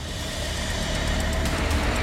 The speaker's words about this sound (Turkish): Pekala, vinç çekmeye başlıyor.